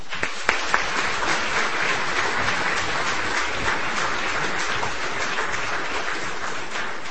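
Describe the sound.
Applause from an audience at a literary weekend talk greets the speaker: brisk, even clapping lasting about seven seconds, with a couple of sharper claps near the start.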